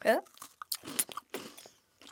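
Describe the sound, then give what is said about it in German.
Biting into a greasy butter biscuit shaped with a panda face gives a few short crunchy bursts, with talk before and around the bites. “Und jetzt beiß ich mal ab, ja?”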